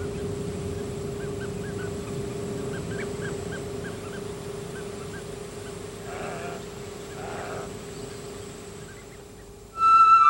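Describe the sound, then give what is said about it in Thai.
Birds living at the Bueng Boraphet wetland call over a steady low hum: short, repeated honking notes run through most of the stretch, with a few denser bursts of calls later on. “จากการสำรวจของนักปักษีวิทยาพบว่ามีนกต่างๆอาศัยอยู่ในบอระเพ็ด”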